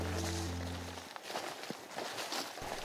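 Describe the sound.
Footsteps walking deeper into a forest, soft and irregular, stay faint throughout.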